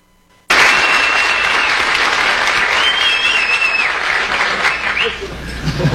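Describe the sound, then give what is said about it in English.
A studio audience on Johnny Carson's show breaks into a standing ovation for the Apollo 13 crew in 1970. The dense, loud applause starts abruptly after half a second of quiet and holds steady to the end. “that is the first time since I've been doing this show in 7.5 years that I've seen an entire studio audience get to their feet and applaud.”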